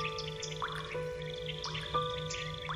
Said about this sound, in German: Tropf, Tropf, Tropf macht es, als du angestrengt nachdenkst.